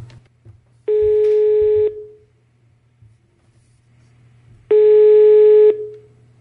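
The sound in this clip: Ringback tone on a telephone line while placing a call: two long, steady buzzing tones of about a second each, separated by a pause of nearly three seconds, over a low line hum.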